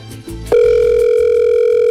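Telephone tone on a call: after a few soft low sounds, a loud, steady, continuous tone begins about a quarter of the way in and holds unbroken to the end.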